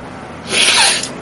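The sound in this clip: A single short sniff, about half a second of airy, breathy noise that swells and fades, heard alone without talk.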